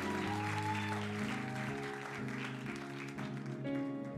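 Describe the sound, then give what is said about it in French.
A church audience applauds the musicians, steady clapping that runs the full four seconds while sustained keyboard chords continue underneath. “Est-ce qu'on peut acclamer encore une fois les, musiciens hein, comment, Pour un travail extraordinaire”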